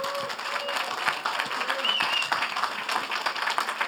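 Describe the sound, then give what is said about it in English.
Church audience applauding to welcome a speaker to the stage, a steady, moderately loud patter of clapping throughout with a couple of brief high whistle-like tones. “So would you just put your hands together and welcome Miss Ramona Hill.”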